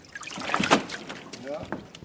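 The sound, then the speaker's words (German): Water trickles and sloshes as a floating pontoon holding leaf lettuce is lifted out of the nutrient solution it floats on. A few short splashes and drips scatter irregularly across the moment, some louder than others. “im Wesentlichen Blattsalate, aber auch essbare Blüten in einem kleineren Bereich, schwimmen also auf solchen Pontons in einer Nährlösung. Ich hebe mal eine an, damit Sie das auch mal sehen können.”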